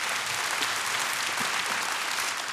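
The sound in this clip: Audience applause welcomes a speaker to the stage, with dense, steady clapping that stays loud and even from start to finish.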